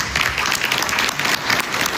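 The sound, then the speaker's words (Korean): Guests applauding at a signing dinner at the Palace of Versailles: a steady, dense wash of many hands clapping, even in loudness from start to finish. “마크롱 프랑스 대통령 등 참석자들이 흐뭇한 표정으로 박수를 보냅니다.”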